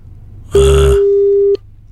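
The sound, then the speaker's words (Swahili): A single steady ringback tone sounds for about a second on an unanswered phone call. It opens with a brief low, rough burst and stands alone against faint background noise. “Tunakupigia simu hushiki simu. Umesema uko na shida katika ndoa. Sisi ndo hao tunakupigia na hushiki.”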